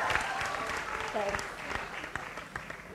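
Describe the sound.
A talk-show audience in Singapore applauds to welcome a guest, a steady patter of clapping with a voice speaking over it.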